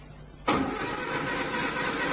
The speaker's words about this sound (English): Then suddenly it happened. The car shuddered to a standstill.